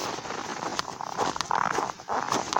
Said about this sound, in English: I was going to walk with my pack today, but it appears that my dog wrecked my pack. So, I will simply walk